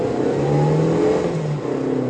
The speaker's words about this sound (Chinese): 说着，外婆狠狠地踩了一脚油门。